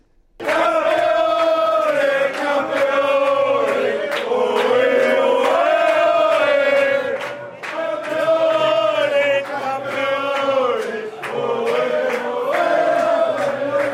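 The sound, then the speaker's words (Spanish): Crowd cheering and chanting from Spanish fans celebrating Spain's victory over England in a final, gathered at a Spanish community club in Melbourne, Australia. The loud roar holds almost the whole time, with one brief dip midway. “Así sonaba la victoria de España ante Inglaterra en Australia. Miles de aficionados han madrugado esta mañana para disfrutar en comunidad de una final poco habitual.”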